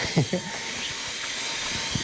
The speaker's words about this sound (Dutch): Oké, ik ga heel even dit allemaal stofzuigen, want ik doe dit gewoon aan mijn eetkamertafel midden in mijn huis. En het is nu echt één grote zaagselbende.